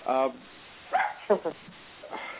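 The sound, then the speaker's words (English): A dog barks in the background, a few quick, sharp barks under ongoing talk, with the voices louder than the barking. “forgive the dog barking in the background.”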